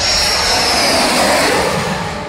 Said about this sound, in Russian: Ну вот, в полку Су-30-х прибыло. По этому самолету и не скажешь, что он новичок.